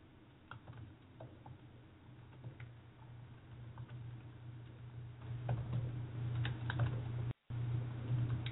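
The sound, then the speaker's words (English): Typing on a computer keyboard: many quick, light key clicks in an uneven patter over a low steady hum, growing somewhat busier toward the end, with a momentary dropout near the close. “Let me type this in.”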